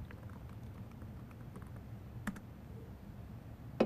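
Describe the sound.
Faint clicking of keys as someone types a password on a computer keyboard, a few scattered taps against a low steady hum, with one slightly louder tap near the end.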